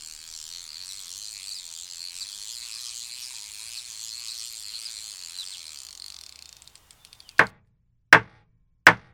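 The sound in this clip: Fishing line reeled in with a fast, steady clicking ratchet that winds down and stops, followed by three sharp, evenly spaced raps of a judge's gavel.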